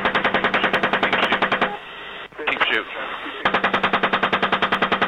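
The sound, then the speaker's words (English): Machine-gun fire during a military engagement involving Humvees: two long bursts of rapid, evenly spaced shots, split by a short stretch of radio chatter and voices. “All right, firing.”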